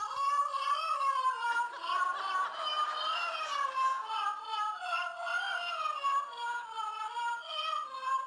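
Electronic meowing plays from a Christmas sweatshirt printed with cats, a continuous wavering, warbling cat-like cry that rises and dips in pitch for about eight seconds, fairly quiet and with no talking over it.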